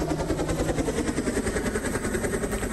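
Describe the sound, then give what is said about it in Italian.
A flying drone gives off a continuous buzzing motor whine with a steady pulsing throb, loud and unbroken throughout. “Ah beh, è il drone, oramai c'è un drone per tutti.”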